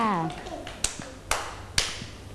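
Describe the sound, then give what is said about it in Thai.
Children clapping their hands together for a classmate after a woman's voice speaks, a few sharp claps in unison, evenly spaced about half a second apart, with quieter taps between. “เด็กๆปรบมือให้น้องออโต้ด้วยค่ะ”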